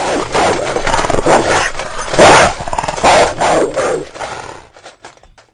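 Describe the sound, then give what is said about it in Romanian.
Dog growling and barking: a caged animal snarls and lunges in loud, harsh bursts that run almost continuously for about four seconds, then fade away. “când Smith Frumosul renunța și se retrăgea, în urma lui se auzea un râi provocator, iar uneori Colț Alb se repezea la gratiile cuștii lătrându-și ura.”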